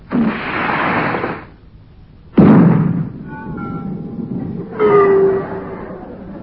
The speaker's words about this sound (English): Stand by the fire depth charges. Depth charges ready, sir.